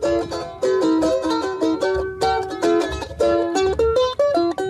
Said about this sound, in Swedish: har du hört talas om instrumentet charango? Nej, det kan jag inte direkt säga att jag har. Det låter så här.